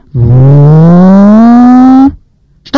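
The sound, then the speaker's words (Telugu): A car arrives, heard as one loud, steady engine-like drone that climbs gradually in pitch for about two seconds, then cuts off abruptly into near silence. “చాలాసేపు అయిన తర్వాత ఒక car వచ్చింది.”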